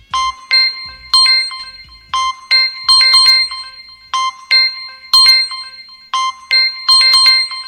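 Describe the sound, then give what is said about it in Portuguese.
Mobile phone ringtone plays a bright, tinkling, bell-like melody that loops about four times. It is loud and heard alone. “Desculpem, é que tenho que atender o meu telemóvel.”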